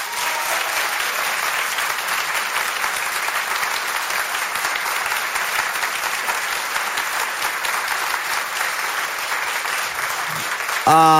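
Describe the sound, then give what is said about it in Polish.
A concert audience gives sustained applause, a dense and steady clapping that keeps an even loudness for about ten seconds before breaking off at the very end. “Brawa!”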